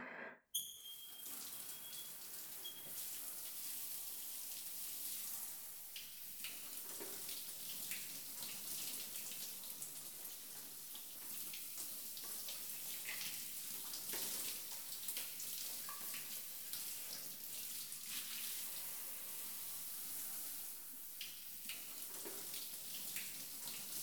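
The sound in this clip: A tap runs as water rinses over a person's body. The flow is a faint, steady splashing that lasts throughout, with no one speaking.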